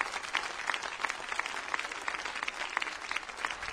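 A standing church audience applauds to welcome a guest preacher, with dense, steady clapping from many hands throughout.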